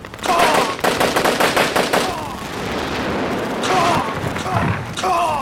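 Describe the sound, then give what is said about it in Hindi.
Gunfire in a tank battle, with a tank gun firing at another tank: a rapid burst of loud repeated shots, then a sustained roaring rumble and further blasts. “और अस्त्र gun निशाना लगाओ उस तीसरे tank पर। Yes sir, वो tank निशाने पर आ गया है सर। फायर।”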